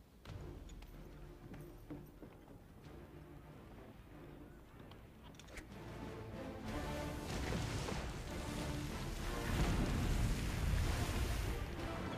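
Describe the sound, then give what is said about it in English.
Heavy ocean waves surge and crash with gusting wind, a rough, rumbling wash. It swells noticeably louder and fuller in the second half. “Them's is some hefty waves.”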